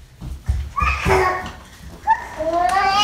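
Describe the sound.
Sixteen-month-old twin boys run around a dining room table at home. A few low thumps of footfalls sound under bursts of high squealing and babbling toddler voices.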